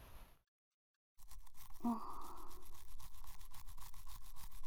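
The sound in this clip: A toothbrush scrubs someone else's teeth, including the inner surfaces. After a moment of silence comes a steady, continuous bristly scrubbing at an even loudness.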